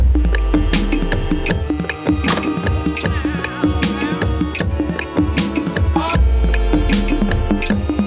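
A jingle for the Danish P1 show Hjernekassen: loud, continuous music with punchy percussive hits and sustained tones running throughout.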